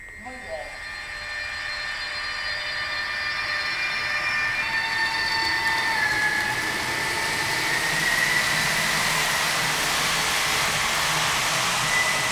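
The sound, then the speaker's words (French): Railway train set being hauled onto track A: a continuous rolling rumble with sustained high whining tones that hold steady and shift slightly in pitch throughout, with no break in the noise. “Donc je vais tractionner et puis on va aller ranger la rame sur la voie A.”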